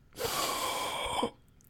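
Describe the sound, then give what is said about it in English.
One deep breath: a single long, airy rush of breathing lasting about a second, taken alone and fairly faint, then ending abruptly. “Take a deep breath.”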